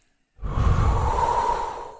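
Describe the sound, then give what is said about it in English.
One deep breath is drawn in during a guided relaxation exercise, a breathy inhale that starts after a brief silence and stays strong and sustained to the end. “just breathe in. Let all that hatred go. Breathe in. Let all that hatred go.”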